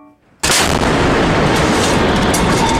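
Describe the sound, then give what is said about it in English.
Ship cannon fire sound effect erupts abruptly after a brief quiet moment, then continues as a loud, dense, sustained roar of heavy artillery shots with no voices. “the Rogerer unleashed its load and began by running shots at the bow of the ship.”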